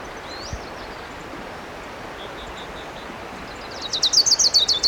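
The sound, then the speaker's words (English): An orange-crowned warbler sings a rapid trill of high chirping notes near the end, louder than a few faint earlier calls, over a steady background hiss. “There's a warbler singing. It might be an orange crown.”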